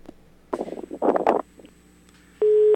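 Telephone line after a dropped call on a phone-in line: a short stretch of garbled, crackly line noise, then a single steady electronic beep near the end.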